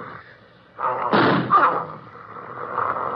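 A single gunshot rings out in a radio drama: one sharp, loud burst with a brief decaying tail, set against quiet background hiss.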